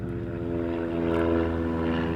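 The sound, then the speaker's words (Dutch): Low-flying small sport planes pass over a parking area with a steady propeller drone, a loud, even hum built on a rich stack of engine harmonics that holds constant throughout, with no voices. “Groot enthousiasme als ik merk dat de vliegtuigjes nog steeds van de partij zijn.”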